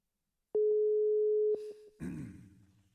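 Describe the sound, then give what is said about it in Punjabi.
A telephone line tone plays as a call is placed to a doctor: one steady, even tone lasting about a second, then a few short beeps, and then a burst of rougher, noisier sound. “ਤੇ ਇਹ ਆ ਲਓ ਜੀ, ਲਓ doctor ਸਾਹਿਬ ਨੂੰ ਕਾਲ ਕਰ ਦਿੱਤੀ।”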